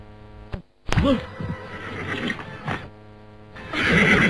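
A horse gives one loud, shrill, wavering neigh near the start, followed by lower breathy, rumbling noise and a louder burst of sound at the end.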